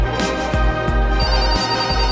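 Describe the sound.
A mobile phone ringtone plays an electronic pattern of quick, regular repeating pulses. It is bright and fairly loud and runs continuously, with no talk over it.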